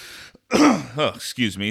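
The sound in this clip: Throat clearing from someone whose throat is a little dry: a couple of short, gruff, voiced rasps lasting about a second.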